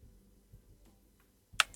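Single key press on a computer keyboard while cutting a recording in a video-editing program: after near silence, one crisp click comes near the end, followed by a quick second click as the key is released.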